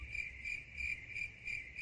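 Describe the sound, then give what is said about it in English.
Crickets chirp in a steady, high-pitched trill that pulses in a regular rhythm. The sound is faint and heard alone. “Crickets.”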